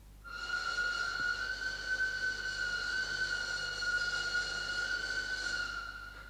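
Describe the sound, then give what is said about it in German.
A train in English India, running fast with a naphtha-fired locomotive: a steady rolling rumble under a sustained high whistling tone, rising quickly at the start and holding level to the end. “unter Zug der englischen Railway Company, gefahren von einem englischen Lokomotivführer und geheizt mit englischem Naphtha, begab sich in eiliger Fahrt an den Feldern der englischen Plantagenbesitzer vorbei durch das englische Indien.”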